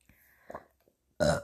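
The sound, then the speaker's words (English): A single loud, short burp erupts near the end, following a few faint, soft mouth noises in otherwise quiet surroundings. “Sorry, burped.”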